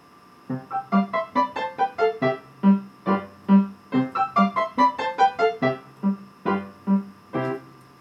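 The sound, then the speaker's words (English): A lively accompaniment pattern in rapid scales from a Dvořák symphony movement plays as a recording. It is made of many quick, bright, evenly pulsing notes that climb and fall in running figures, with no voices. “The second theme that I spoke of earlier is a rather expansive theme in the melody, but it's accompanied by a very lively pattern in scales. The pattern sounds like this.”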